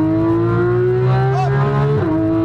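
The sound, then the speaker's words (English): Race car engine on a hot racetrack holds a steady high drone, then the pitch drops sharply at a downshift before the revs climb again, loud and continuous. “Downshift. Unwind. Lots of throttle. Go for it.”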